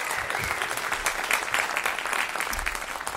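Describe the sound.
Audience applause for a songwriter after a live performance: dense, steady clapping from a crowd that carries evenly through the whole stretch without fading.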